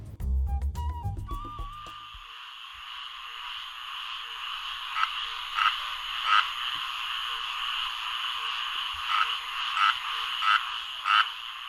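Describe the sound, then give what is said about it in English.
A chorus of croaking frogs, a classic sound of spring and summer. A dense, steady high trilling is broken by recurring louder pulsing calls at irregular intervals. “What you're hearing is one of the classic sounds of spring and summer, croaking frogs.”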